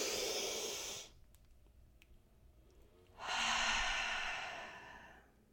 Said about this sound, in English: okay, let me take a deep breath.